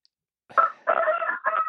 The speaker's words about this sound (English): You got a rooster? I do. I have about 20 chickens. One of them is a rooster.